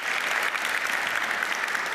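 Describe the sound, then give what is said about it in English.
Audience applause at a group discussion event: dense, steady clapping from many hands, loud and even throughout, with no voices standing out. “round of applause.”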